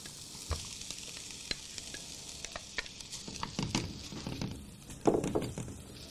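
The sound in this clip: Mushrooms cook uncovered in a frying pan, giving a faint, steady sizzle. Scattered knocks and scrapes from stirring rise a little louder toward the end.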